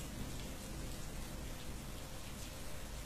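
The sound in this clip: Rain streams down a glass pane in a steady downpour, a dense, continuous hiss of countless drops over a low rumbling undertone, even and unbroken throughout.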